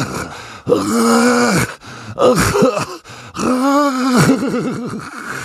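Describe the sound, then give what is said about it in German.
Ghastly groaning rises from under a bed: a few long, drawn-out vocal groans with a wavering, quivering pitch, loud and close together with short gaps. “Was war das? Woher kam dieses grässliche Stöhnen? Jetzt war er sicher. Da war etwas unter seinem Bett.”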